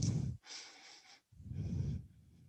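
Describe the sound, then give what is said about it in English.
Deep breathing during a yoga side angle pose: long, airy hisses of breath in and out, alternating between a low rushing phase and a thinner, brighter one, each lasting under a second. “breathe in”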